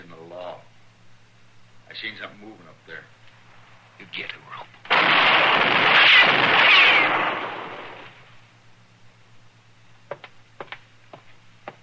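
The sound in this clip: A gunshot fired during a tense armed standoff, heard as a single loud, broad blast that rings out for a few seconds before fading, with people talking quietly before and after it.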